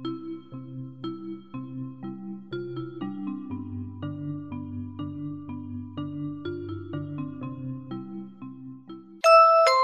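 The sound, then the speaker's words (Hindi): Soft instrumental music fills a timed pause: gentle, steady melodic notes with a chime-like tone, then a brighter, louder chime enters just before the end. “याद रखें कि 10 से 15 second का वक्फा खामोश वक्फा होगा और 30 से 40 सेकंड का वक्फा हल्की सी म्यूजिक के साथ होगा, जैसे कि ये।”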